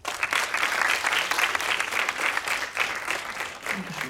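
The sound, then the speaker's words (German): An audience at a film screening claps for the voice-over speaker, producing dense, sustained applause from many hands at a fairly even loudness, with small swells and dips. “Deswegen einmal einen großen Applaus für die Einsprecherin Saskia.”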